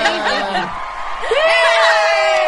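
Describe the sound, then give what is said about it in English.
Cheering and whooping from a few excited voices, like a live studio audience, mixed with chuckles. A rising whoop stands out in the middle, and the loud, lively din stays fairly steady throughout. “See, it's so great that our live studio audience agrees with us.”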